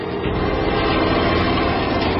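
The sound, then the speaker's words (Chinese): Two aircraft diving overhead, heard as a steady, loud, continuous engine roar that holds without a clear rise or fall and with no voices. “天上2架飞机俯冲了2次之后，大概是看到了正确无误的信号，便调转机头走”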